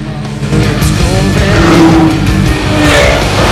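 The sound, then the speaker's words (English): Engines of Porsche, Lamborghini, Chevrolet and BMW sports cars driving in convoy at dusk make a loud, steady roar that holds throughout, with no voices. “Porsche, Lamborghini, Chevrolet and BMW. They drive in convoy, headlights blazing through the red glow of dusk.”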